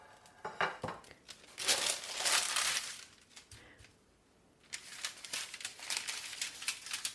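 Crinkly, papery peeling of a fruit that is still warm at the bottom, heard as irregular rustling and tearing bursts, a brief quiet pause midway, then more fine crackling strips pulled away.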